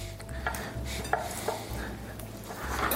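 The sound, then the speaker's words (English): Small chunks of butter, two tablespoons cut into pieces, are dropped into a pan of eggs, making a few soft knocks and clinks over a low, steady kitchen background. “So my 2 tablespoons of butter, I actually cut them up into little chunks. Each tablespoon can be cut up into 2 to 3 chunks and dumped them in there.”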